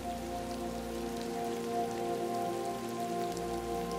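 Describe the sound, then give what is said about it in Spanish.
Rain falls as a steady, soft hiss of drops, with a low sustained tonal hum running underneath throughout. “Y te permites relajarte con el hipnótico y agradable sonido de la lluvia.”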